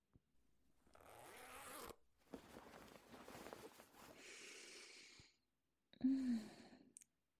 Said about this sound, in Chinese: 现在我就帮你解开裤子拉链